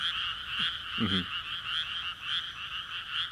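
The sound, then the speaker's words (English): Frogs croak in a large city-owned wetland in Oregon in spring, forming a steady, pulsing high chorus. A single lower, rasping croak stands out briefly near the start. “Here in Oregon, my house, directly behind my house, is a large wetland that's owned by the city, and so we have a lot of frogs.”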